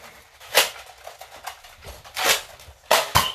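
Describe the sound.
Nerf blaster shots during a Nerf war: a few sharp, airy snaps and puffs separated by quiet gaps, the last two coming close together.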